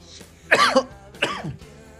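Two sharp, fairly loud coughs come about three-quarters of a second apart, each breaking into a quick double burst before dying away, with quiet on either side.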